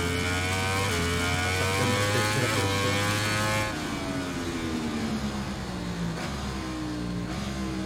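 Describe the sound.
Motorcycle engine in a MotoGP video game at the Portimão circuit, revving loudly and continuously with shifting pitch, dropping noticeably partway through and then carrying on at a lower tone. No voices.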